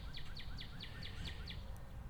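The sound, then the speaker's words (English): Birds chirp in a regular series of short, high notes that each drop in pitch. The calls are faint and sit over a steady low background rumble. “and quiet. Birds.”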